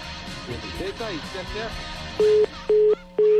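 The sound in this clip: Three evenly spaced, steady telephone tones sound while a landline is being called. Each tone is loud and clear and follows a stretch of talk.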